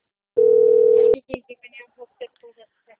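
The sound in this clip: A steady telephone dial tone hums alone at a mid pitch for under a second while a call is being placed, then cuts off abruptly and a few short, separate sounds follow.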